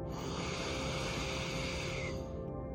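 Steady breathing in through the nose, a quiet and even airy hiss that lasts almost the whole clip before tapering off near the end.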